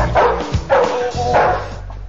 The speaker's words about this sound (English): Inside, he walks by a police dog.